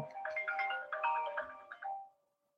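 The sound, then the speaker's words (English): A phone ringtone plays through a laptop: a bright melodic phrase of repeated tones that runs for about two seconds and then stops, leaving silence. “hello, you still there? Oh yeah, sorry, my phone just called and it came on my, it's connected to my laptop.”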